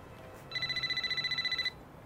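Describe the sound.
A flip-style cell phone ringing: a single short burst of rapid, high-pitched warbling pulses lasting about a second, rising out of a quiet low hiss and stopping abruptly.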